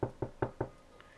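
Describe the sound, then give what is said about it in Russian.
Four firm knocks on a door at night land in a quick, even rhythm within about a second. They are sharp and fairly loud, with no voices. “Вечером, когда уже было темно, вдруг в дверь кто-то постучал.”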